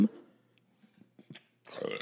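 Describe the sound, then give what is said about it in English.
A short burp after sipping hard seltzer: a single low, throaty belch at the start, followed by near quiet with a few faint clicks and a brief burst of breathy noise at the end. “Two sips, and I'm already burping.”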